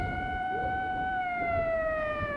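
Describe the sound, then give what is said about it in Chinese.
Siren of a night-patrol police car driving past: a steady, loud electronic wail with clear harmonics that holds its pitch and then drifts slightly lower toward the end, over a low traffic rumble. “不时有巡夜的警车 从他身边驶过”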